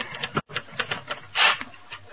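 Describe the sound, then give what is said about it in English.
Typewriter keys clacking as an editor types up an editorial, with quick, irregular bursts of sharp strikes and a louder, brighter clatter midway through. “Oh, I don't know why I can't read these things after they come out of the typewriter.”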